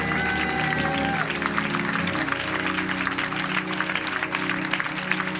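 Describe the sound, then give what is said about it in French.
Congregation applauding during a church worship service: dense, steady clapping holds at an even loudness throughout, with sustained tones running underneath. “Est-ce que tu peux acclamer le Seigneur Jésus-Christ?”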